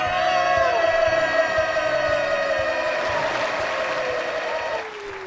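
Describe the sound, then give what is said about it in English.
Fake studio-audience crowd sound effect: dense, loud cheering and applause that runs continuously and fades slightly at the very end. “Can you guys have more fake audience sounds?”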